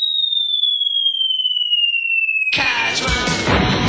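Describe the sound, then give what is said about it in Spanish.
A descending whistle for a man falling from the sky: a steady high tone glides slowly downward for about two and a half seconds, then ends in a sudden loud, noisy crash that rings out to the end. “¡un hombre cayó del cielo!”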